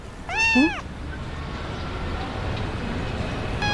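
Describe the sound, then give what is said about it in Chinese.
A pet cat meows once at a hotel front desk, a clear call whose pitch rises and then falls, followed by steady low rumbling background noise. “先生，您的猫啦？”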